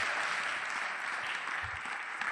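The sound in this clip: Faint audience applause, a soft, steady patter of clapping that holds at an even low level for just over two seconds.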